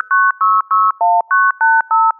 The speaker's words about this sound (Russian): Как звучит старый добрый кнопочный телефон? Прослушаем.